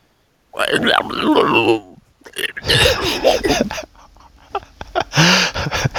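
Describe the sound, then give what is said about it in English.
A voice talks while inhaling, giving a raspy, gasping, monster-like growl. It comes in several strained phrases broken by brief pauses. “can you talk while you inhale?”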